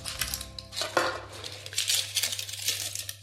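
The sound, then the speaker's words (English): Knife chopping large red and yellow onions: a few faint, crisp cuts and clicks of the blade, with a low steady hum underneath. “And then I'm going to chop it up. I don't want them to be too thin.”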